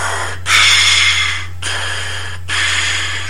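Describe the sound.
A voice imitates a film villain's heavy breathing with three long, loud, rasping breaths of about a second each, over a steady low hum.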